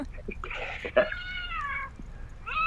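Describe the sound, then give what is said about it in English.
Two cats meowing insistently for their dinner: a few meows, including a long, drawn-out, wavering cry in the middle and the start of another at the end, over a faint background hum. “Any possibility you can hold them up and let them meow to the microphone?”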